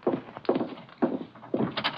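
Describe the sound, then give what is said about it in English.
Knocking at a door: a steady series of dull, muffled thuds at regular intervals, with a quicker cluster of raps at the end, moderately loud. “Someone at the door.”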